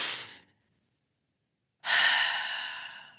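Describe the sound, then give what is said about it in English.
A person yawns: a brief breathy intake fades out, then after a pause comes a long, drawn-out breathy exhale with faint voicing that tapers off slowly. It is soft, with no talking. “Have I just made you yawn?”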